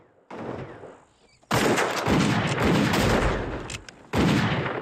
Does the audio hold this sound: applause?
no

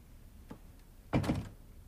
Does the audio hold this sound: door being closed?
yes

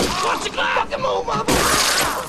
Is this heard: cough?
no

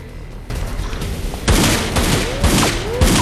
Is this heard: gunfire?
yes

